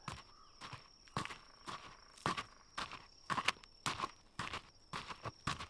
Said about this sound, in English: A woman steps out from the woods and onto the path